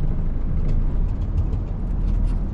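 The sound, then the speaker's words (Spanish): A car travels along a road through desert landscape in a thriller film, giving a low, steady engine and tire rumble. The rumble stays deep and even throughout, with no voices. “Los cuatro viajan en coche por una carretera rodeada de un paisaje desértico.”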